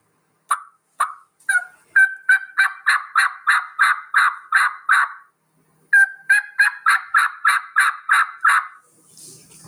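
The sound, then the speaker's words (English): Turkey yelps on a bat wing style mouth call, clear at first and rolling into a raspier tone. Loud, sharp notes form a long rhythmic run that quickens, then after a brief pause a second run follows, with no talk. “the bat wing style call, you know, I run all my air sort of down the right side of that call to get that clearness, and then roll it over into a raspier type yelp. It would sound something like this.”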